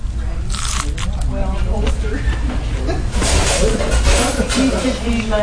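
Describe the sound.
Crunchy bites into fried chicken with a juicy, well-seasoned crust, giving crisp, crackling crunches over a dense, steady bed of sound.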